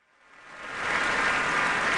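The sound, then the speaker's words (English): Musicians applauding the orchestra at an opera curtain call: clapping swells from near silence over the first second into a steady, dense patter that holds to the end, with no voices. “And all our musicians are applauding the orchestra and taking hands and bowing together.”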